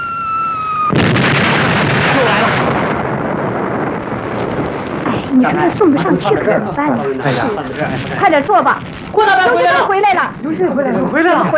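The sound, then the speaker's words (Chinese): Enemy artillery fire on a battlefield position: a sudden loud, roaring blast sets off a long rumble of shelling, and voices talk and shout over the continuing noise. “敌人炮火封锁的厉害”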